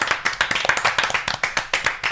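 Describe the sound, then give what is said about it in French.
One person clapping their hands in applause for themselves, a steady run of sharp, bright claps at a quick even rhythm, about four or five per second, fairly loud, with no talking over it. “je me suis auto-applaudi.”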